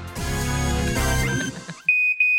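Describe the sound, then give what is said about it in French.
A fire alarm rings, its high, steady electronic tone cutting in abruptly and loudly after music fades, with a couple of brief breaks in the tone. “Qu'est-ce que c'est? C'est l'alarme. C'est l'alarme. C'est quoi? C'est l'alarme incendie. On doit partir.”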